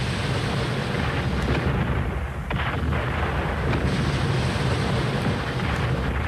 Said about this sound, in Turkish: Kaleden atılır bu toplar.